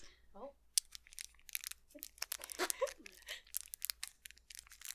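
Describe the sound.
Crinkly plastic packaging being fumbled and pulled open as ASMR, with irregular sharp crinkles, crunches and tearing bursts at close range, and brief faint voices between them.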